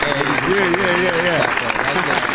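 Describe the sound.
Clapping for a young artist, a steady wash of applause running under a man's talking voice.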